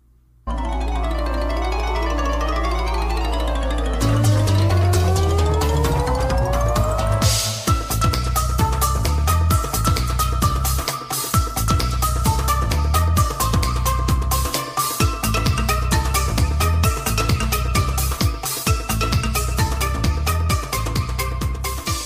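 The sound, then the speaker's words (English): Music from the video game Crash Bandicoot: The Wrath of Cortex plays loud and continuous, opening with sweeping tonal melody lines before a dense, steady beat takes over and drives on to the end. “Crazy is I had never heard the music in this game before because I'm not a Crash Bandicoot fan. This song that I had to capture was stuck in my head on loop since yesterday.”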